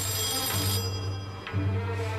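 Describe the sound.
A telephone rings with a steady, buzzy electronic tone that briefly breaks off twice, then resumes. No voices are heard.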